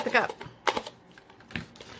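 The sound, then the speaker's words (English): Cutting the rim off a cup gives a few crisp, crunching bursts separated by quieter scraping and rustling. “So I'm just going to cut the rim off because it's going to hold me up. Well, let's just cut the cup.”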